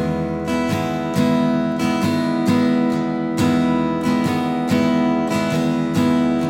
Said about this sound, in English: sometimes I'll fill that pause in with a real light downstroke so that it sounds like this.